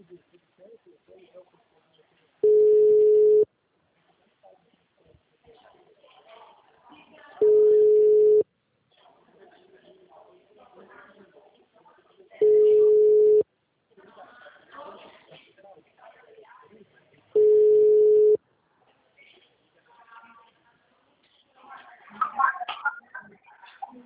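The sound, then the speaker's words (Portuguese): Telephone ringback tone on an outgoing call: four evenly spaced, steady mid-pitched beeps, each about a second long, with faint background voices and rustling in the gaps between them. “Ai, tá chamando.”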